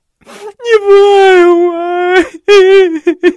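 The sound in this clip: A storyteller's voice imitates a woman crying: one long, wavering wail, then a short break and a second wail that ends in a few choppy sobbing bursts.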